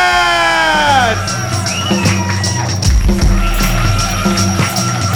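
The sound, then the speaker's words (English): A comedy club audience whoops and cheers for the evening's host and MC, a sustained crowd roar carried over a steady, thumping music beat. “Please put your hands together and make it feel welcome. Your host and MC for the evening, Mr. Brian”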